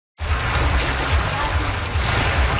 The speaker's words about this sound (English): That's the sound of paddlers embarking on the last Paddle the Don event back in 2019